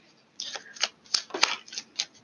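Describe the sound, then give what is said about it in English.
A Taramucha tarot deck being shuffled by hand, a quick series of crisp, papery riffles and slaps, each burst short and sharp, alone and fairly quiet. “I am shuffling my Taramucha deck.”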